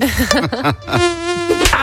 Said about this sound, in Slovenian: Za boj proti komarjem obstaja boljši način.